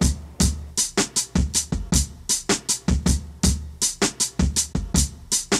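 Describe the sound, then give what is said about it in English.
A chopped-up drum break sampled from a 1969 song: many sharp, punchy hits in a quick, stuttering rhythm, with crisp cymbal tops and heavy low thumps repeating steadily, played alone. “These drums are chopped up to sound like this.”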